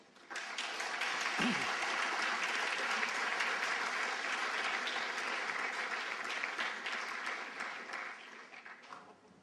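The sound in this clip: Audience applause welcoming a speaker to the podium at an academic lecture: dense, steady clapping that holds at an even level for several seconds before tapering off at the end.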